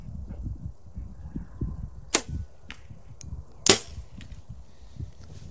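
Arrows shot from a bow: two sharp, brief snaps stand out, the second stronger, with a few fainter ticks around them over a low rumbling background.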